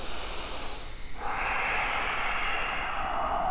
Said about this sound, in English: Take up space and know that you deserve to take up space. Breathe so big you take up space beyond your physical body.